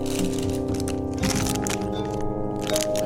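A candy packet being opened and star-mix gummies, including little cola gummies, being munched: a few irregular bursts of crackling and crunching over a steady low background.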